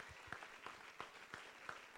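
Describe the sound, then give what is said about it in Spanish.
Applause from a church audience during a Spanish-language worship service: steady, fairly faint clapping with sharper accents recurring roughly every third of a second across the two seconds. “Denle un aplauso, mis hermanos, aleluya.”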